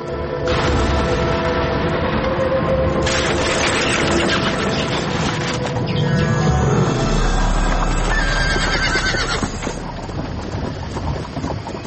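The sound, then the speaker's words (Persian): Horse hooves clip-clop steadily as a horse-drawn carriage carries a family on a dark, foggy night. The rolling rumble is dense and continuous, and a horse neighs over the busy clopping. “یک شب تاریک و خبارالود بود و یک فامیل با اسب و گادیشان در سفر روان بودند.”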